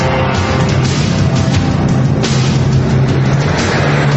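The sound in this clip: A car driven fast during a chase, its engine roaring loudly at a steady droning pitch with a constant rumble of road noise underneath.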